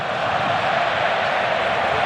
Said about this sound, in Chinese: 现场呢，西班牙的球迷们在随着球队的每一次传球而一起喝彩。